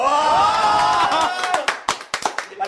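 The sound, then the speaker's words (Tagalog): A voice is heard first, then scattered, sharp hand claps from a few people follow in an irregular burst over the final second. “Palakpakan.”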